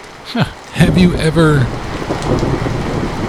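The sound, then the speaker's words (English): Heavy rain outside makes a steady, dense hiss throughout, while a man's voice speaks briefly over it. “Man, it's really raining out there.”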